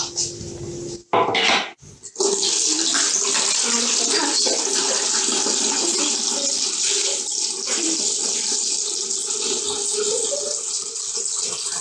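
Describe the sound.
Water runs in a steady rushing stream, broken by a couple of short gaps in the first two seconds, then flowing continuously and loudly to the end.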